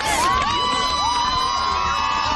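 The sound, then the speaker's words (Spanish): A crowd cheers with high-pitched shouts and whoops for Gisèle Pelicot at court. The loud, bright voices overlap in a continuous swell of excitement, with no single speaker standing out. “Aplausos a la entrada y a la salida para Giselle Pellicot, sentencia histórica, aunque su defensa se plantea recurrir.”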